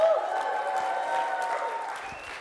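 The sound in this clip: An audience applauds to welcome a speaker, a dense, steady clapping that holds loud throughout and eases slightly near the end.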